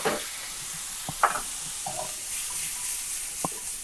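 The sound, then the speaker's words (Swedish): A frying pan sizzles softly after being pulled off the heat as about a teaspoon of soy sauce goes in, with a steady hiss and a few light stirring clicks. “Jag drar stekpannan från värmen. Ja. Går ner med, jag har ungefär en tesked soja.”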